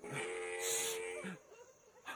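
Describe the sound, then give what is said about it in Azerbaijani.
A camel calling on a moonlit night: a drawn-out, buzzing, harmonic moan that wavers, fairly quiet, with a short lower grunt near the end. “İşittin mi? Bu dəvə səsidir ətəbə. Yaxşı qulağa ətəbə. Həmən o dəvənin səsidir.”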